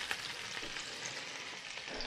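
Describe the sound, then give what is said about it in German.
Small parboiled potatoes fry in olive oil in a pan, giving off a soft, steady sizzle with faint crackles throughout. “Was ihr hier schon mal brötscheln hört nebenbei, das sind die kleinen Kartoffeln die ich ja angekocht hatte und jetzt in Olivenöl brate.”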